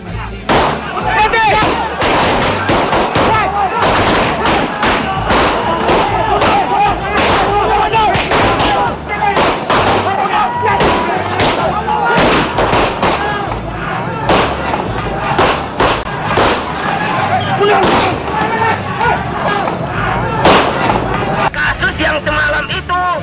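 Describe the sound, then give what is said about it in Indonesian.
Police fire a long series of warning shots at a crowd of protesters: many sharp, loud bangs cracking in rapid, irregular succession throughout, over a constant roar of crowd noise and babbling voices. “Polisi kemudian melepaskan serangkaian tembakan peringatan untuk menghentikan.”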